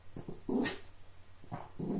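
A dog growls and snarls while fighting with a carpet, in short, rough, low bursts with an irregular rhythm. The sounds are fairly faint and heard alone.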